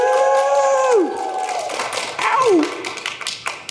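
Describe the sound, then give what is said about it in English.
A live audience at the Fancy Food Show in New York applauds and cheers, with a loud burst of clapping and crowd noise that tapers off within a few seconds. “Live audience, show them that you're here. Give us a big round.”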